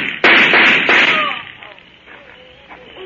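Gunshots in a radio drama: a few sharp, loud bangs in quick succession near the start, each with a bright burst, then a fading tail that drops to a quieter hiss.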